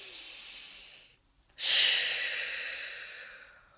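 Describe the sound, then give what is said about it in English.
A deep belly breath taken after rubbing a frankincense, lavender and wild orange essential oil roller between the palms: a softer airy breath, a short pause, then a louder, long breath that slowly fades. “And then I love to actually just roll it over my palm, rub my hands together, and take a deep, deep belly breath.”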